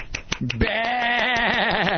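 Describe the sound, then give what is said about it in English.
A human voice imitating a sheep's bleat: one drawn-out, wavering 'baa' with strong tremolo, held steady and fairly loud for well over a second after a few brief clicks. “the sheep sit there and go, baa,”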